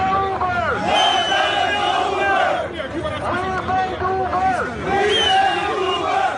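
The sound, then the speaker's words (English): Crowd of Uber drivers chanting in unison at a New York protest over a 15% fare cut: loud, rhythmic shouted phrases repeating over a steady bed of crowd noise. “the Uber protests here in New York are hitting a fever pitch, evidence of which you're about to hear from video footage posted by the website The Verge the other day.”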